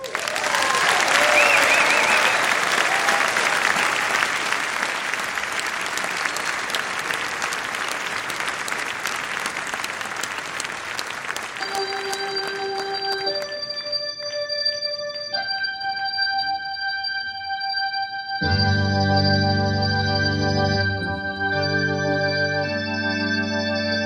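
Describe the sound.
Warm audience applause greets jazz organist Rhoda Scott and her Ladies All Star band, a dense, steady clapping that fills the first half before sustained musical chords take over and carry on to the end.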